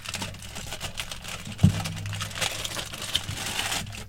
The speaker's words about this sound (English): And yes, people, that's foil. That's foil.